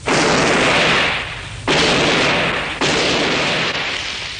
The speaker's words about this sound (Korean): 저건 구식 총소리인데요?